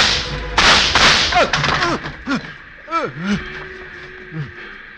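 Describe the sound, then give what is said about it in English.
Gunshots fired from behind a car seat: several sharp, loud cracks followed by whining, swooping ricochet-like tones that rise and fall, thinning out toward the end. “She was fast. One minute she was upright in the seat, and then she was gone. Fire at us from behind the seat.”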